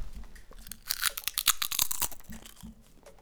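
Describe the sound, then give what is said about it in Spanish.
Someone eats crunchy potato chips, making a quick run of sharp, brittle crunches that build to loud bursts in the middle, then faint chewing. “Esto es comerse una patata, mira.”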